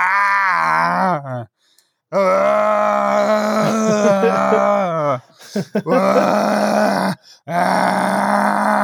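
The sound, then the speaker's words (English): A man imitates an extremely loud snore that sounds more like yelling: several long, harsh, groaning vocal bursts separated by brief pauses. “And then he just proceeds to like snore, but in a way that I've never heard a human being snore in my life. It was more like yelling.”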